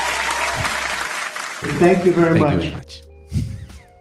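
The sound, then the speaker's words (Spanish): Applause on a Spanish-language radio program: a dense burst of clapping for about a second and a half, followed by a voice and a few thumps. “no puedo más que dedicarle un aplauso”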